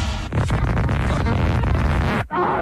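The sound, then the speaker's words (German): Intro jingle for a radio show: a loud, dense wash of music and booming effects running throughout, broken by one brief sharp gap near the end. “So, ansonsten knallen wir jetzt hier erstmal das Intro-Ding drin”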